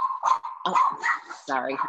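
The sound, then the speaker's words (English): A dog barks on the set of a live talk show: a few loud, rough barks in quick succession over a steady high whine that runs through the whole clip. “I can't control the dog.”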